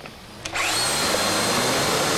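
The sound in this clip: A power cutter with a diamond blade grinds into a security seal made of an exotic alloy and overheats. After a faint start it cuts in abruptly with a loud, steady, high-pitched whine that holds without a break.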